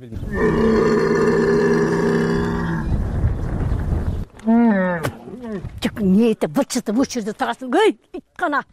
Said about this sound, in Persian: این شتر از گرسنگی مینالد و التجا میکند که خوراک دهم، ولی از کجا گیرم؟